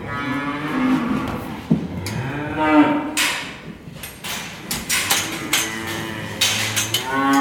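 Dairy cows moo on a working milk farm, a few long, deep, overlapping lowing calls rising and falling in turn, with no talk over them.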